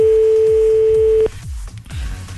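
Steady telephone dial tone as a call is dialed. It holds for just over a second, then cuts off with a click into a hissy open line, while faint low rhythmic pulses run underneath throughout.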